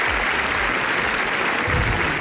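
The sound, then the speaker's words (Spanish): Sustained audience applause after a film premiere at the Cannes film festival: a thick, even roar of many hands clapping without pause, loud throughout. “Festival de Cannes, donde Pedro Almodóvar ha presentado su película Amarga Navidad y después ha recibido 8 minutos de aplausos.”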